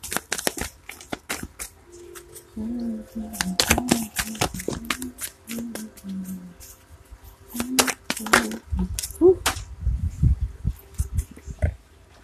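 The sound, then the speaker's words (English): Tarot cards shuffled by hand with crisp, irregular snaps and riffles as a card flies out of the deck, a voice speaking in between. “Another card just flew out.”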